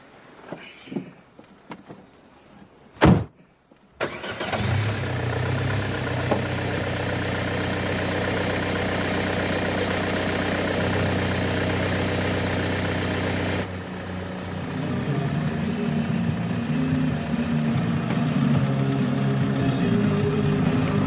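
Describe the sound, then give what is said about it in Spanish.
A car engine starts after a sharp thud and then idles steadily for over fifteen seconds. Partway through, the level drops slightly and the tone turns a little rougher. “Luego sube a su vehículo, arranca y se queda un rato pensativo sin saber qué hacer.”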